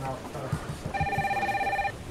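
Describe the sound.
A telephone rings as a call is placed to a customer, heard as one steady electronic ring tone lasting about a second, high and clear over a low pulsing background.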